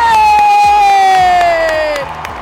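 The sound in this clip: A crowd cheers in the grandstands at a women's Australian football match at Princess Park as a goal is kicked. The roar is loud and sustained, and one shrill voice holds a long, slowly falling cheer above it.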